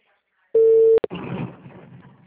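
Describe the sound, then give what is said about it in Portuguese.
Telephone line tone during an outgoing call: one steady beep, then a couple of sharp clicks and a stretch of faint, noisy line hiss. “Tá chamando.”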